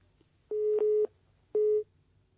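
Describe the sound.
A disconnected phone call leaves a line tone: a few short, steady electronic beeps at one pitch over a faint background hum.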